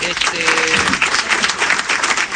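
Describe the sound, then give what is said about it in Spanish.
Brief burst of dense applause that stays steady for a couple of seconds, with a short voice audible near the start. “Necesitamos aplauso para Nataluti.”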